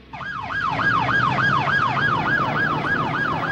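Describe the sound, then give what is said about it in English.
An ambulance siren wails at night as the vehicle heads toward a tenement block. The loud, fast whoop rises and falls repeatedly in an even rhythm over a low engine and road rumble. “An ambulance heads towards the tenement block where the shootings happened.”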